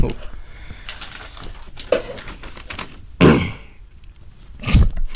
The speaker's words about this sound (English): Get a nice throat clear.